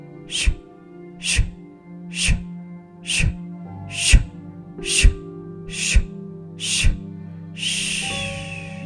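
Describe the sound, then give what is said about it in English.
Forceful breathing exhales from a breathing drill that engages the lower abdominals: eight sharp, breathy bursts in a steady, even rhythm, then one longer hissing breath, over soft sustained tones. “As you're doing those exhales too, really focus on contracting the lower abdominal.”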